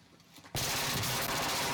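Automatic gunfire from the Warzone battle royale video game bursts in suddenly after a quiet half second, then holds as a loud, dense, continuous rattle to the end.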